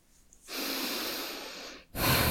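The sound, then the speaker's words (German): Heavy breathing from a person: one long, loud, rushing breath lasting over a second, then a short gap and a second forceful breath starting up, with no talk over it. “Das ist dieser Moment, wo ich wieder viel atmen muss”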